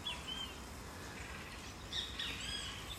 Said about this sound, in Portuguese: o Bentinho está cantando, olha. E ele fala, e ele repete, bem te vi, bem te vi, bem te vi.